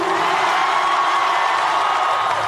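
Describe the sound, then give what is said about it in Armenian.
A large crowd of Armenians from Los Angeles and nearby cities cheers and whoops in a central park to welcome Armenia's prime minister, a dense, steady roar of many voices holding at an even level throughout. “Լոս Անջելեսի և հարակից քաղաքների հազարավոր հայեր եկել էին լսելու Հայաստանի վարչապետին, բուրըն ծափահարություններով, վանկարկումներով նրան դիմավորեցին։”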